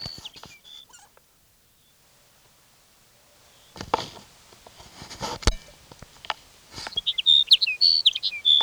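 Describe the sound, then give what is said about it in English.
Sage sparrow song: a short run of high, thin chirping notes near the end, after a quiet stretch broken by a few scattered soft knocks and rustles. “Here's sage sparrow number one for the day.”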